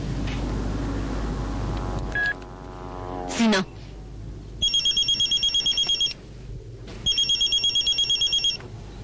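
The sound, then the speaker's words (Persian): A mobile phone rings inside a jacket: two bursts of rapid, high trilling electronic beeps with a short gap between them. Low rumbling noises come before the ringing. “سینا گوشیشو از توی کتش در میاره.”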